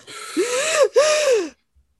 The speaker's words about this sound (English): Deep breath. Inhale.